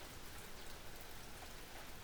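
Steady rain falls at a poolside, a continuous dense hiss of drops on surfaces that stays even in loudness throughout, with no voices.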